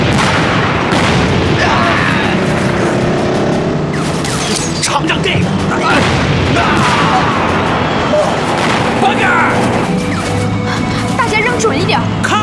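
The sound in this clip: Hand grenades thrown and exploding in a chaotic fight, heard as a dense, unbroken run of loud booms and crashing bursts with voices shouting over the din.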